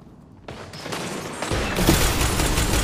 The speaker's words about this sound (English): The stupid fusion rifle. It's that fusion.